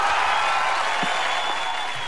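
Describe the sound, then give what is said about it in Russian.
Quiz-show audience applause, a thick and steady roar of clapping hands. It holds a constant, fairly loud level and tapers very slightly at the end. “Конечно же, аплодисменты.”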